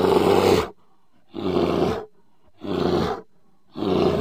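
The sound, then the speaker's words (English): A bear grunts while eating berries, giving four loud, rough, throaty growling bursts, each under a second long, separated by short pauses. “The bear kept eating and making grunting noises.”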